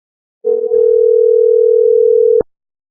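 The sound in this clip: A telephone dial tone sounds as a call is placed. After a brief click comes one steady, continuous mid-pitched tone lasting about two seconds, which then cuts off abruptly.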